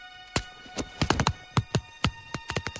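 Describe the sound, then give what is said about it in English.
Tap-dance footsteps make many crisp, sharp taps in an uneven, syncopated rhythm, some clustered in quick runs and others spaced apart, with no voices. “Gloria listens to his steps.”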